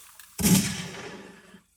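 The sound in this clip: A single gunshot sound effect: a sudden, loud crack followed by a long decaying tail that fades over about a second, heard alone without talk.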